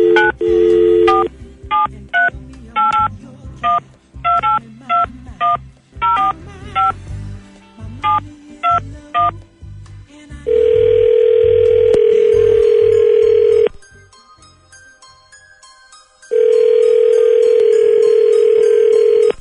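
A telephone is dialed with a quick series of short keypad tones, followed by two long, steady ringing tones separated by a pause.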